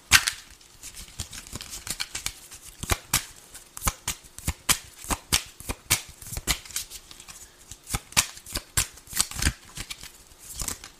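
A deck of tarot cards is shuffled again and again, giving many crisp, papery riffles and snaps in a quick, uneven rhythm at a moderate level.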